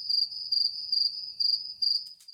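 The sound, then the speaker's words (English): A cricket chirps in five evenly spaced bursts of high, shrill trilling, steady and fairly loud, with only faint low noise beneath. “What do you think that noise is? It's a cricket.”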